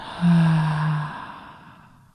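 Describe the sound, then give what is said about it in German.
A deep, audible breath during a guided breathing exercise: one long, slightly voiced sigh-like exhale that swells quickly and then slowly fades into quiet. “Ein letztes Mal einatmen, ausatmen.”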